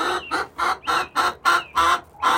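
Hens clucking in their new coop with roosting bars and a nesting box: a quick series of about eight rhythmic clucks, each a short bright burst, fairly loud and evenly spaced, with no talking.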